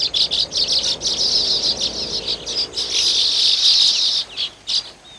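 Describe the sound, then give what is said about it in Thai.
Weaver birds chatter around their nests while a female chooses and helps finish the bulb-shaped nest: many high, rapid chirps and buzzy calls in overlapping bursts, fairly loud and continuous. “นกกระจาบตัวเมียจะเป็นฝ่ายเลือกรังที่ตนเองชอบที่สุดและจะช่วยสร้างรังนั้นเพิ่มเติมเป็นรูปกระเปาะจนเสร็จแล้วจะเริ่มวางไข”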